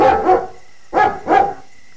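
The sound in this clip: A dog barks a few times in short, loud, mid-pitched bursts, with a brief pause after the first pair and then two more barks close together, alone without voices.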